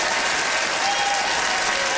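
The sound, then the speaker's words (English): Audience applause serves as a vote for a debater at a debate over whether museums make you smarter. It is loud, thick and continuous across the short span. “Nice clap for Isabel.”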